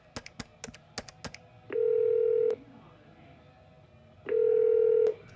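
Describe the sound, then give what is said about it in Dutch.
Telephone keypad tones as a number is dialed to call the police. A quick run of short beeps is followed by two long, steady ringing tones separated by a pause. “Even de politie bellen, hoor. Jullie mogen wel meeluisteren.”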